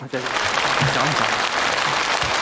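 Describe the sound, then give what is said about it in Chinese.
Sustained audience applause at a stage performance, a dense, steady clatter of clapping that fills the whole clip, with a voice faintly audible beneath it. “谢谢大伙热烈的掌声。”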